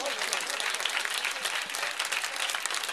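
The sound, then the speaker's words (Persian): An audience claps hands at a religious recitation gathering, a dense, even wash of applause that carries on without a break for about three seconds. “بابا دست بزن، این دست رو بیاد بالا، بیاد بالا، نترس شلا دست امام زمان میگیره، دست بیاد بالا”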